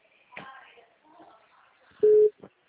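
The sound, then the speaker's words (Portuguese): After a phone call keeps disconnecting, a telephone busy tone sounds as one loud, steady beep, preceded by faint voices and a soft click and followed by a brief, quieter sound. “Agora a situação piorou 10 vezes. Só tá desligando.”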